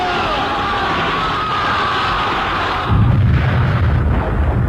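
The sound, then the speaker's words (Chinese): A volley of gunfire from guerrilla fighters against bandit troops sounds as a dense, continuous, loud barrage with no separate shots, and a heavier low rumble comes in about midway. “随着游击队的一阵枪声，匪军大乱。”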